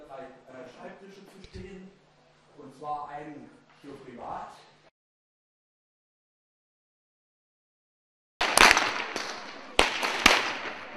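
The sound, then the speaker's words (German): Whips cracked by Pentecost dancers during the Whitsun custom in Germany's Mansfeld region: many loud, sharp cracks in rapid, uneven succession, following a stretch of talk and a brief silence. “Überall im Mansfelder Grund knallten am Wochenende wieder die Pfingsttänzer mit ihren Peitschen.”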